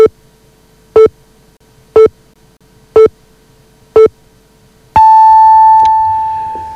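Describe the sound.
Radio time signal pips marking the top of the hour: five short, evenly spaced mid-pitched beeps one second apart, then a longer final tone of the same pitch that fades out.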